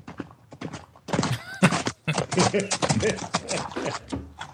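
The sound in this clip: A Pink Pony plugin sound gives a wavering whinny, a pony neighing amid clattering clip-clop knocks and hollow thuds, with voices talking around it.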